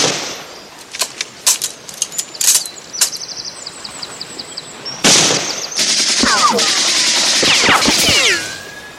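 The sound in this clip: Machine-gun and rifle fire in a war film battle scene against German soldiers: scattered sharp shots and short rattling bursts, then a louder, sustained stretch of gunfire with high whistling sweeps.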